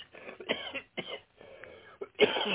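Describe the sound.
Harsh, sputtering coughs and throat clearing follow an accidental inhalation of coffee, coming in a rapid, uneven series and ending with a loud rasping burst.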